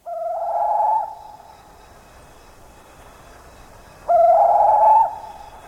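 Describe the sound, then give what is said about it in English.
A bird from an Indonesian forest gives two loud, sustained mid-pitched calls, the first near the start and the second about three seconds later, separated by quiet background hum with no other sounds. “That's the sound of one of the many bird species found in the forests of Indonesia.”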